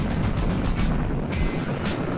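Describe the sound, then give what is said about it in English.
Rocket liftoff of the OSIRIS-REx mission, a loud steady roar of broad rumbling noise with crackle that continues unbroken throughout. “And liftoff of OSIRIS-REx, its 7-year mission to boldly go to the asteroid Bennu and back.”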